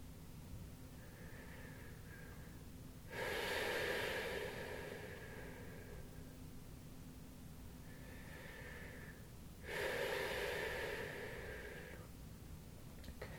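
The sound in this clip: Slow, deep breathing in and out, two full breath cycles of soft, airy rushes, each pairing a quieter phase with a louder, longer one, over a faint steady low hum.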